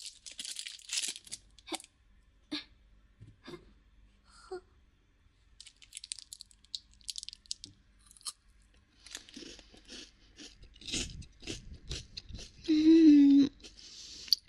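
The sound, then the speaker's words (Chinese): Wrapper crinkling and tearing, then crunchy chewing and biting of a chocolate bar. The crackles and munches are intermittent and fairly soft, with a short steady tone near the end. “好吃，好满足，好喜欢吃巧克力棒呀！”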